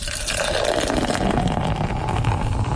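Draught beer pours from a tap in a continuous frothy, hissing gush. The liquid flows steadily for the whole stretch with no pause, and no voices are heard over it.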